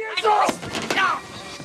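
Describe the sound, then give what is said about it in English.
Heavy thuds of a baseball bat smashing into a man's face, two sharp impacts mixed with a strained voice crying out. “Jerry smashes Tommy in the face with the baseball bat, sending him crashing heavily to the ground.”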